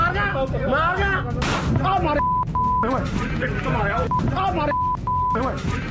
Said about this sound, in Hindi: पंजाब के मानसा में Facebook live में बहस के दौरान ये गोलीकांड की तस्वीरें।